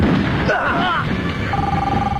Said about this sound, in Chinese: 包勃从一个被打死的匪徒身上找到了一个正在响着的手机